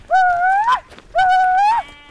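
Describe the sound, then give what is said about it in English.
Two drawn-out bleats from a flock of Chiro sheep being driven up mountains to a summer camp. Each is loud, tonal and wavering, about half a second long, with a slight upward bend before breaking off. “Navajo weavers are bringing a flock of Chiro sheep up the mountains to a summer sheep camp on top.”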